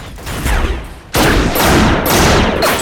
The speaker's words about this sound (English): The convicts open fire.